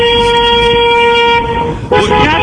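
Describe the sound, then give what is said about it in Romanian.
A taxi's car horn honks in a long, sustained, brassy blare that cuts off briefly near the end, then sounds again just as loud. “Mai vine o taximetrist care mă claxonează cu hai, mopul. Dați-i claxoane.”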